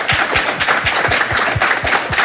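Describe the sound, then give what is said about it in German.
Audience applause heard as loud, steady, evenly spaced claps in a quick regular rhythm, sharp and punchy, continuing without pause and with no talk over it. “Sie dürfen sehr gerne klatschen.”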